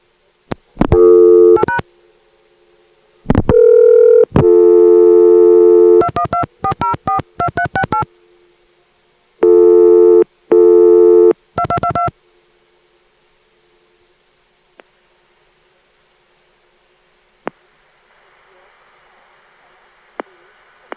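Touch-tone dialing of a New York number on a telephone line routed through Atlanta and New York SPC switches. Loud bursts of steady multi-pitched tones and rapid short beeps give way to near silence, broken by a few faint clicks and a low hiss.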